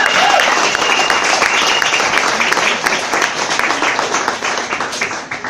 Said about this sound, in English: And give it up for Slam for having us all together.